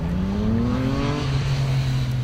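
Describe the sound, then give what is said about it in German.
Road traffic roaring below a rooftop terrace in Vilnius, a loud, steady drone with one engine tone clearly rising in pitch early on. “Unten dröhnt der Verkehr.”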